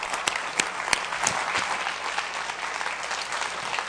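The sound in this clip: Applause welcomes a speaker: steady, dense clapping from an audience runs throughout, with a few sharper claps standing out and no voices over it.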